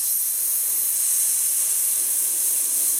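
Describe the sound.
A rider's sustained, breathy hiss, made with the mouth to slow a cantering horse, holds steady and unbroken for about three seconds with no other sound.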